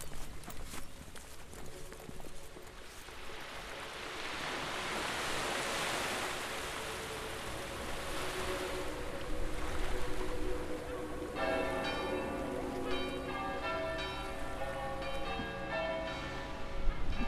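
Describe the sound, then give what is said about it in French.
Harbour ambience at Saint-Jean-de-Luz, facing Ciboure: a faint, steady wash of waves runs throughout, and ringing church bells join in about two-thirds of the way through and continue to the end. “Là, nous sommes euh, devant le port de Saint-Jean-de-Luz et en face, nous avons donc Cibourg.”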